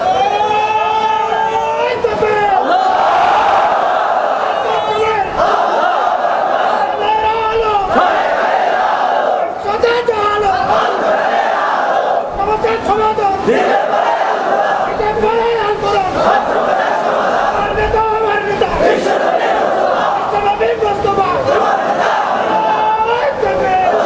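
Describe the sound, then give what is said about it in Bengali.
A large crowd at a Bengali Islamic religious gathering chants slogans together, loud massed voices shouting repeated phrases in unison with a strong rhythmic pulse that continues throughout. “এবার একসাথে একটু slogan দেন তো, একসাথে দেন।”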